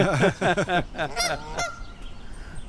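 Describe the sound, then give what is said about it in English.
Canada geese trade contact calls back and forth in a rapid series of loud, nasal honks that stop abruptly partway through, leaving a quiet stretch. “We got some Canada geese.”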